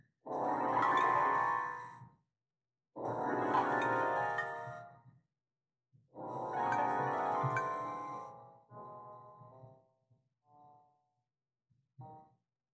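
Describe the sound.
Sonified particle-collision data from tau pair events: three long, swelling, bright tonal bursts separated by silence, followed by three shorter, fainter tones that dwindle toward the end.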